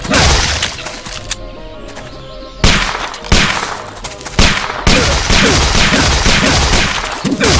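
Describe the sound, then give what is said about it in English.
Machine gun fire in a video game: loud, rapid bursts of shots rattle in long runs, broken by a couple of short, quieter pauses before the firing resumes. “Machine gun. Let's use machine gun here.”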